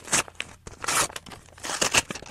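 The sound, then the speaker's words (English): Paper rips and crinkles as credit card offer envelopes are torn open: a few quick, sharp tearing bursts mixed with crumpling, loud and close. “For about 2 months now, I've been saving all my credit card offers. The other day, for dramatic effect, I opened them all up at once.”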